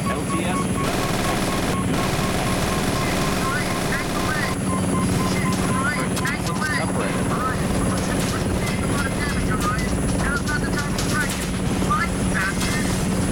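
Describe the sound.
Helicopter rotor and engine noise in a video game, a loud, steady chopping drone that holds from start to end, with scattered voice-like fragments over it.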